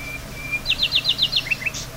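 Small birds chirp outdoors: a quick run of six high, bright chirps, then a few softer notes, over a quiet background hiss.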